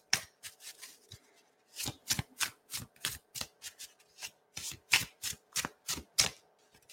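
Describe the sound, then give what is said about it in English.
A deck of oracle cards being shuffled, heard as many crisp, papery riffling bursts in an irregular rhythm, some quick and clustered, others spaced by brief pauses, with no talking. “Let me see if there's one more. Is there one more card that wants to come through?”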